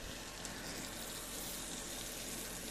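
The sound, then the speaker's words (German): Bacon sizzles in a frying pan for spaghetti carbonara: a dense, steady crackle and hiss that holds evenly throughout with no pauses and no voices. “So, jetzt muss ich hier mal mich um den Speck kümmern, nicht, dass der uns noch anbrennt.”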